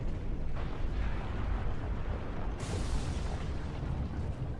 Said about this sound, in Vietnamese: vùng đất hắc ám này bỗng dừng chấn động, tiếng nổ dữ dội từ bên ngoài truyền vào.